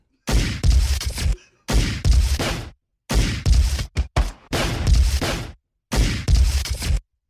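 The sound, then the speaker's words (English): Video game gunshot sounds cut together into a song, forming loud bursts of rapid gunfire separated by short silent gaps in a rough rhythm. “Here's a YouTube song, Oscar, made entirely from video game gun sound.”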